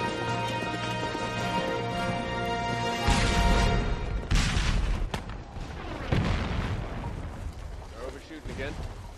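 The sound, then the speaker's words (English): Confederate artillery fire with shells landing: a few heavy, deep booms stand out over a continuous low, rumbling battle din. “You notice how that Reb artillery always overshoot? Tom? Yes, sir. Yes. Another one a bit closer.”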